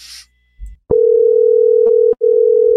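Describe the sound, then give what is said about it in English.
Telephone dial tone heard while a number is dialed, a loud steady single-pitch hum that begins after a click, drops out briefly, then resumes. “I'm dialing it right now.”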